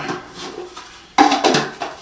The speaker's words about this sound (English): Then I'm going to get the lid. I'm going to snap that on. Now it's sealed like tight.